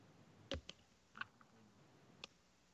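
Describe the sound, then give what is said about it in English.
A few faint, scattered keystrokes on a computer keyboard as someone types a search query: sharp, isolated clicks with uneven gaps between them, no voices present. “Go to the search engine and just type in a Florida man.”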